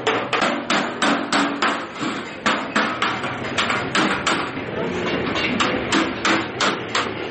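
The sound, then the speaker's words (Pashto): Rapid, rhythmic hammer blows on metal ring out in a blacksmith's shop in a Kandahar bazaar, where axes, shovels and stoves are forged. Many sharp, evenly spaced strikes carry loudly and steadily throughout. “د کندهار ښار د ټکټک بازار د اهنګري په یوه دکان کې سهار تر ماښامه څټک پلاس، بخاري او نور فلزي توکي جوړوي”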